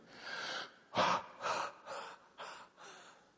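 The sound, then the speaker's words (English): Repeated forceful breathy exhales with no inhales between them, a series of short puffs of air in a steady rhythm, each rising and falling in loudness, with no talking. “I want you to exhale 5 times without inhaling with me.”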